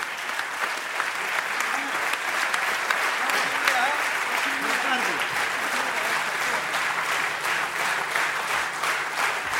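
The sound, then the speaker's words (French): A standing ovation at the Théâtre de la Ville for a Cretan music quartet: dense, steady applause from a large audience, many hands clapping continuously at an even, strong level. “Un public extrêmement chaleureux, un public qui était debout, standing ovation, et les musiciens ont imaginé, en fait, à la suite de ces applaudissements, une improvisation sur, pour remercier le public.”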